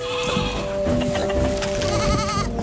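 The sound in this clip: Goats bleat on a permaculture farm where chickens and pigs are also kept. The wavering bleats sit over a busy, continuous background of other noise.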